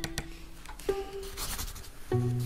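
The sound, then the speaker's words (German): A pen writing on poor-quality paper: dry, scratchy rubbing strokes in short bursts, with no talk. “Aber ja, gib her, ich schreibe das Konzept.”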